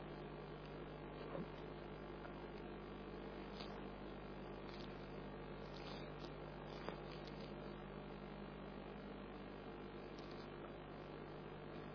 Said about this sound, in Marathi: हा पंखा आहे मग तो जास्त या बाजूला झालाय.